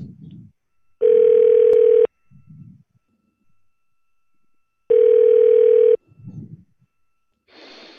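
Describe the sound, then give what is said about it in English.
Telephone call tones as a number is dialed: two long, steady, mid-pitched tone bursts, each about a second, separated by a pause, with faint rustling and breathy sounds in between. “Okay, I'm dialing this number.”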